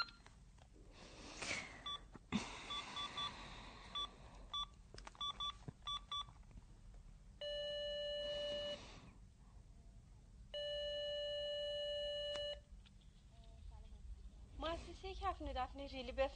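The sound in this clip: A telephone call to a workplace is dialed with a quick series of short keypad beeps. Two long, steady ringing tones follow, then a voice speaks.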